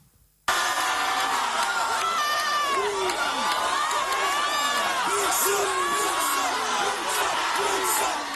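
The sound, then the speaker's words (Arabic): Students at a protest in Macon cheer, whoop and laugh as a policeman dances in front of them. A brief near-silence is followed by a loud, sustained burst of shouting and excited voices that carries on without letting up. “بدل ما يكتفي بمراقبة المتظاهرين بلش يرقص قدامهم وسط تشجيع وضحك الطلاب اللي تجمعوا حواليه وصاروا يصوروه.”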